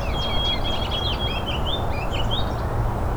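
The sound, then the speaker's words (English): A goldfinch sings in a continuous run of quick, high twittering chirps and warbles over a steady low rumble. “You can also hear a goldfinch nearby. It's kind of overpowering it.”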